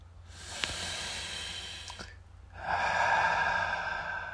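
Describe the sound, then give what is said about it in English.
A deep breath taken during a guided relaxation exercise: a long, soft, airy inhale, a short pause, then a longer and louder breathy exhale. “you want to take a deep breath?”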